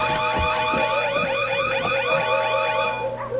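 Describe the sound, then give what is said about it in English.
A loud emergency alarm rings continuously in a room, repeating rapid falling electronic sweeps in a steady warbling pattern. “Shut the fucking alarm.”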